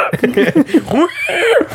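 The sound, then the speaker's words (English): A person imitating a pig, amid talk of Iowa cows and pigs: a quick, loud run of short voiced squeals and grunts that bend up and down in pitch. “Were you just possessed by like a ghost of a pig right then?”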